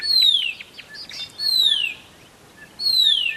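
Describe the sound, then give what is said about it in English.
A Horsfield's bronze cuckoo calls in spring with three drawn-out, high whistles that slur downward, evenly spaced about 1.3 seconds apart. Faint softer chirps sound between them. “That is a Horsfields bronze cuckoo.”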